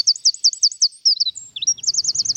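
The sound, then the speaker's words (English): A wren sings a rapid run of high, piercing trilled notes, broken by a couple of brief pauses before the fast trill picks up again. “The wren, a bird to put a smile on your face.”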